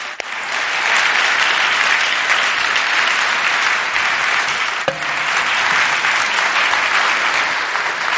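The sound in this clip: A Friend Church audience claps to welcome a guest. The applause is loud, dense and steady for the whole stretch, with one sharp knock midway.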